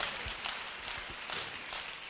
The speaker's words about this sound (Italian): Alleluia, applaudiamo il Re.